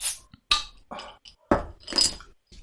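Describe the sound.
Clinks and sharp knocks as a bottle of light beer is opened: a few short, bright taps and rattles in quick succession, separated by brief quiet gaps.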